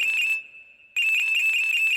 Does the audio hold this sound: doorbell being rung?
no